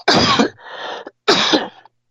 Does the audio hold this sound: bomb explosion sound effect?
no